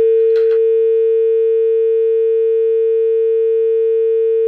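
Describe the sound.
A steady telephone tone sounds after a phone call disconnects: a single loud, unbroken hum holding one pitch for the whole stretch, alone apart from a brief scrape near the start.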